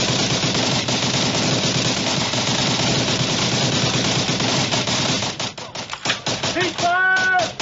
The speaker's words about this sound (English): Let's go to the firing of the blank sequence.